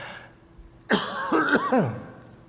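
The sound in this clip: A cough from dust lodged in the throat: a sharp burst opens it, followed by rough, voiced hacking that rises and falls in pitch before tailing off. It sounds alone, with no talk around it.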